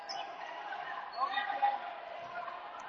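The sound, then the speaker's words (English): A basketball is dribbled on the court during a game, its few soft bounces faint beneath crowd noise and a voice talking. “The dribble drive out to Lesko.”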